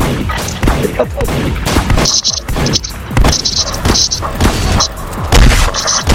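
Video game explosions and gunfire: many loud, booming bursts and rapid crackling shots, packed close together in a dense, continuous barrage.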